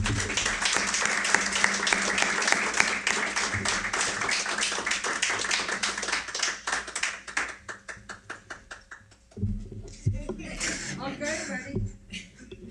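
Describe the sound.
Applause from a church audience welcoming a guest missionary speaker: dense, sharp hand clapping that thins into scattered claps before a voice starts speaking.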